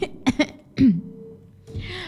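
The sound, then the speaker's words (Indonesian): A person coughs with a couple of quick, short coughs and then one heavier, rougher cough, followed by a low quiet hum. “Saya lagi batuk ini.”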